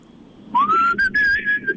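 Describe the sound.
A man whistles alone with a clear, bright tone that slides upward at the start and then holds steady through a few sustained notes separated by short breaks.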